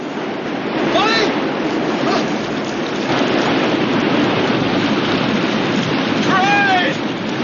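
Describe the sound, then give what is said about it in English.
Rushing white water at a waterfall as a metal kayak slides down into it, a loud, steady churning roar throughout, broken by two brief, high whistling tones. “The remaining metal kayak slides down the waterfall behind him. Limbs flail in the white water, and then a figure surfaces.”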